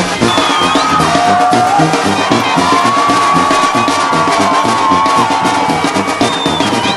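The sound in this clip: Crowd noise at a jaripeo rodeo in Pichátaro, a loud, continuous roar of cheering and whooping with whistles cutting through.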